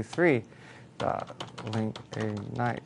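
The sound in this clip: Computer keyboard typing while entering text, with scattered sharp key clicks beneath voiced murmuring.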